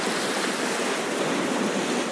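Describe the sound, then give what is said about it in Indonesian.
Wind-driven ocean waves make a continuous, steady roar of surf mixed with rushing wind noise. It is unbroken for the whole stretch, with no voices. “ombak ini memang tidak jelas arahnya kemana sesuka mereka aja diatur oleh angin semakin kencang anginnya”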